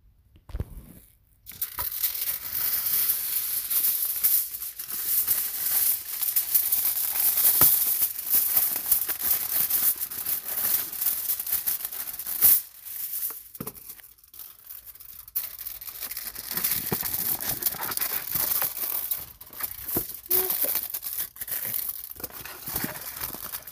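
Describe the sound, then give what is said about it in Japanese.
Aluminium foil is crumpled and crinkled by hand in a long run of dense, crackling rustles, with a short pause near the middle before the crinkling resumes. “ちょっとじゃあアルミホイルの用意をしますね。”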